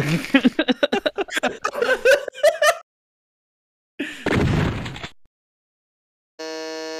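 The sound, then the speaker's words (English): A shotgun fires in the original Doom video game: one harsh, noisy blast with a short rough tail. It comes after a stretch of laughing voices and is followed by a brief electronic tone. “The original Doom shotgun. That is the original Doom shotgun sound.”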